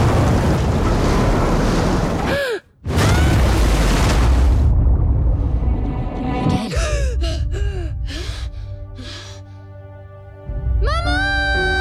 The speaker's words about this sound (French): La mer est démontée.